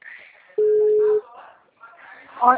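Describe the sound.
A telephone rings unanswered, a single steady mid-pitched ring tone lasting about half a second, with voices heard before and after it.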